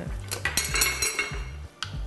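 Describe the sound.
A utensil stirs seasonings such as ginger paste and salt into a pot of soup. It gives quick, irregular metallic clinks and scrapes against the pot, moderately loud.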